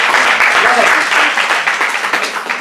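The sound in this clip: Loud audience applause at a French-language presentation, a thick, sustained roar of clapping with voices calling out over it.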